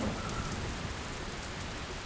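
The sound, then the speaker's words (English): Rain beginning to fall at stone structures by a mountain base, a dense, steady hiss of drops that stays even throughout with no other sounds. “probably going to rain real soon. All right. Just as it's starting to rain”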